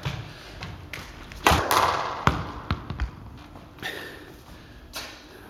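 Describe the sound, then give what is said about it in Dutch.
A racket strikes a punctured, flat ball several times, giving dull, irregular thuds and thumps with lighter taps between them rather than crisp pops. “Die bal, wat was dat? Wat bedoel je? Je slaat alsof je nog nooit een racket hebt vastgehouden.”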